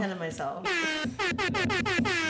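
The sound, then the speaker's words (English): An air horn sound effect blares loud, brassy tones: a short toot, then one long sustained blast, followed by a rapid string of short, choppy honks. “No, it's the air horn”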